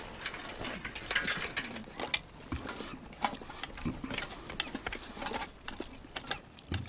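Rapid ratcheting clicks as a nut is hurriedly tightened with a ratchet wrench, an irregular run of sharp mechanical clicks and scrapes at a moderate level.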